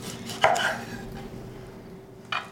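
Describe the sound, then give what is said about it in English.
A knife cuts a lime wedge into a neat garnish: a crisp slicing thump with a short scraping follow-through, quiet stillness, then a second quick cut at the very end, with no voices. “Just a lime wedge. Here, I'm going to cut it so it looks pretty.”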